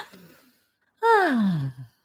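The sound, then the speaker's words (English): A single deep breath let out as a voiced sigh, its tone falling steadily over about a second, loud against an otherwise near-silent background. “So let's take another breath.”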